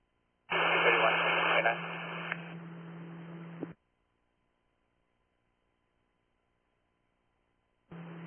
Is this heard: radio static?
yes